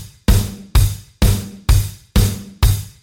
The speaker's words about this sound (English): When you add the extra bass drum hits, it sounds like this.